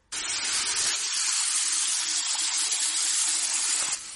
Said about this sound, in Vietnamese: Anh bước vào trong phòng tắm, ngay sau đó bên trong vang lên tiếng nước chảy ào ào.